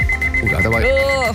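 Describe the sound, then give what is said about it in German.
An alarm clock rings with a rapid, continuous high-pitched beeping that runs throughout, under a voice. “Da hat aber ein Wecker jetzt wirklich zu spät geschlagen, ja.”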